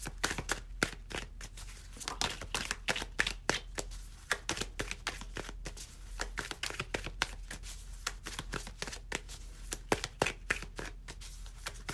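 A tarot card deck is shuffled over and over, making a dense run of many quick papery snaps and riffles at an even, brisk pace, with no voices.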